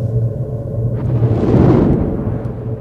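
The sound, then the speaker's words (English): A flamethrower's fuel pack explodes during a wartime battle: a low rumble swells into a broad, roaring burst that peaks mid-way and then fades, over a steady low hum. “A flamethrower's pack explodes. Fire swallows him and two other men.”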